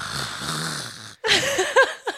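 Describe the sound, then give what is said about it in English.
A large man imitates a loud yawn with his voice: a long breathy rasp, a brief break, then a run of voiced, snorting groans with a couple of louder gulping bursts near the end. “And when you yawn, you sound like this.”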